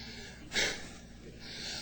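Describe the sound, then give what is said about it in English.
A man catching his breath after singing, heard as a single sharp, faint gasping intake of air, with only quiet breathing noise around it. “Let this fat boy get his breath.”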